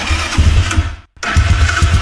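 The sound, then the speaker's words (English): An ATV engine starting with a loud, rough, rhythmic low chugging that cuts out briefly, then resumes at the same throbbing pace. “Sounds like your ATV needs a little TLP, tender loving power.”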